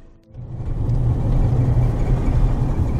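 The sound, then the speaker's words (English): Steady engine rumble and road noise come from a car driving along a road toward thick bush. The low, continuous drone builds over the first half-second, then holds level with a faint whir, and no one speaks. “So now I'm driving along the road into the area that I think this item is.”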